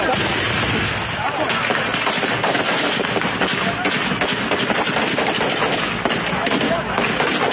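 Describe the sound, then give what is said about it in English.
Gunfire aimed at the convoy of the governor of Borno State in Baga, Nigeria: dense, rapid bursts of shots over continuous harsh noise, with voices mixed in throughout. “They are trying to shield him. They're trying to put him into a vehicle, get him away from the gunfire.”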